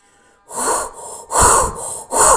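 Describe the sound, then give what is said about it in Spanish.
Forceful breathing with the head tilted back during a breathing exercise: a few deep, loud rushing breaths, inhales and exhales in quick succession after a near-silent start. “Inclina un poco la cabeza hacia atrás. Y empieza a respirar. Ahora.”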